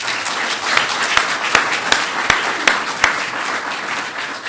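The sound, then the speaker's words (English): Audience applause welcoming a speaker at a San Francisco event: dense, steady clapping throughout, with a few louder individual claps standing out. “would you please join me in giving a warm San Francisco welcome to Dr. Alp Aslandwan.”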